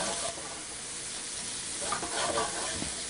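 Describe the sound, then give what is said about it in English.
Sizzling of drained capers sautéing in a pan, a soft continuous hiss with a few light crackles and stirring sounds near the end. “And we're going to saute a little bit.”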